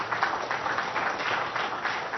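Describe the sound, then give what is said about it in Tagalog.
An audience applauds during a church service, a steady, even wash of many hands clapping with no voices heard over it. “Palakpakan natin ng Panginoon.”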